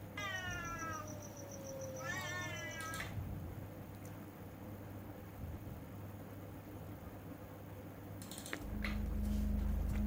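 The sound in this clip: A ghost cat lets out a miserable howl: two drawn-out, wavering yowls near the start over a steady low hum, then a sharp knock and a louder low drone at the end.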